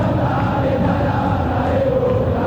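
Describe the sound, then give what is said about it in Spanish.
Football stadium crowd singing its chant during a match between Unión and Boca, a dense, steady roar with a faint sustained melody running through it, continuous and loud. “Canta el público su canción.”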